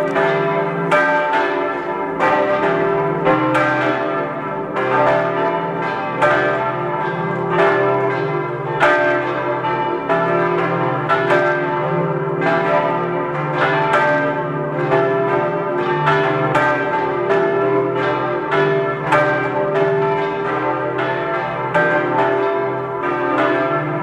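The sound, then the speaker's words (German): Church bells of the classicist parish church in Wattens, Tyrol, ringing at noon: many overlapping, evenly repeating strikes form a full, continuous peal with no voices. “Es ist 12 Uhr. Sie hören die Glocken der Laurentiuskirche in Wattens in Tirol.”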